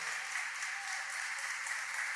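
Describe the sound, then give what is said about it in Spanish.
A church audience applauds during a service, a steady, even patter of many hands clapping at moderate volume without a break and with no voices over it. “Aplauda al Señor.”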